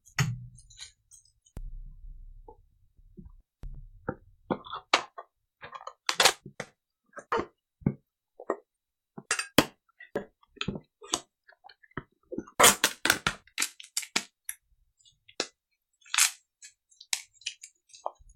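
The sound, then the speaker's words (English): Bubble wrap being unwrapped from a model, heard as many sharp, irregular crackles and pops in scattered clusters, fairly faint and with no talk. “I'm actually unwrapping bubble wrap at the moment of the model.”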